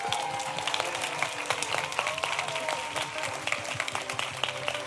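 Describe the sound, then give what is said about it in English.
Festival audience applause at Wilderness Festival, a dense, steady patter of many hands clapping, loud and continuous throughout. “we have to give a huge round of applause and thanks. We've had the wonderful comedian, we've had Lindsay Sharman, we've had Maya Elliott, we've had Jamie Upton, and the wonderful audience here at Wilderness Festival.”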